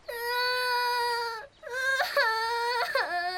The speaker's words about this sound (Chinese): 哇，怎么又哭了？别哭了。